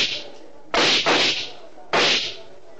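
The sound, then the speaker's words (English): Sharp gunshot sound effects in an old radio drama, fired at a lobby ceiling. There are three loud cracking bangs: two in quick succession, then a third after a short pause, with no talk over them. “Dawson was standing in the lobby and firing his gun at the ceiling.”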